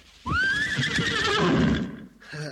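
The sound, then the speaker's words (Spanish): A horse neighs in one long, loud whinny with a wavering high pitch, followed by a brief, quieter sound at the end. “Vamos, uno, vamos, caballito.”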